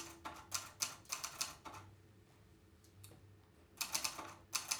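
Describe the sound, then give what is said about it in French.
Typing on a typewriter: quick bursts of crisp, clacking keystrokes, a few short runs at the start, then a quiet pause with a stray tap, and another rapid burst of keys toward the end. “Je tape à la machine.”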